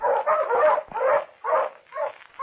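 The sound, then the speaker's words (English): Pointer hunting dogs barking and whimpering while out on a hunt, a loud run of several whiny, yelping bursts in a fairly steady rhythm with short gaps between them. “Those are two very excellent pointers you have there”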